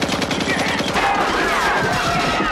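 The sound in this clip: Gunfire from armed equipment: loud, rapid machine-gun-like bursts in a dense, continuous volley, keeping a steady rattling rhythm throughout.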